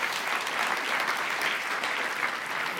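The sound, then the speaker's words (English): Applause from a morning gathering, thanking visiting guests for coming. The clapping is a steady, even wash of many hands that stays level throughout. “So give them a round of applause for being here this morning.”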